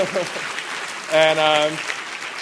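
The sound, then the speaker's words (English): Audience applause at a film program honoring an actress. Steady clapping runs underneath while a voice speaks over it. “You can applaud for that amazing performance.”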